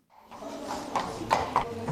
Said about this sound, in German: Das Aufsteigen aufs Therapiepferd ist ein größerer Aufwand.